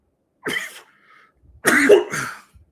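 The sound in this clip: Coughing and throat clearing from someone who has had something go down the wrong pipe: a short harsh cough burst, a pause, then a longer, louder rasping clear of the throat, with no talk.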